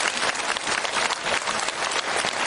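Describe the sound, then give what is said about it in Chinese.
Audience applause fills the moment, dense and steady clapping from many hands, loud and even throughout with no voices standing out. “鼓掌！”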